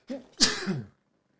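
A single sneeze: a brief intake, then a sharp, breathy burst that fades within about half a second. It is fairly quiet, with no other sound around it.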